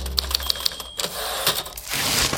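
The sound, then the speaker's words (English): Typing on leases, with a few light, evenly spaced clicks at the start giving way to a steady, rough mechanical hiss. “I can't seem to type these leases anymore.”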